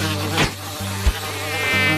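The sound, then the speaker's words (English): A cloud of tiny tropical bugs gives a thin, steady buzzing whine that holds throughout, broken by a few brief louder bumps. “And everywhere Luke walked, he was surrounded by a cloud of tiny tropical bugs flying all around his face”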